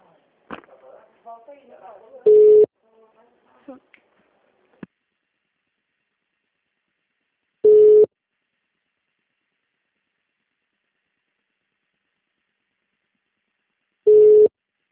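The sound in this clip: Hold tone on a telephone call: three steady, mid-pitched beeps spaced about six seconds apart, preceded by a few faint scattered noises and long silences between the tones.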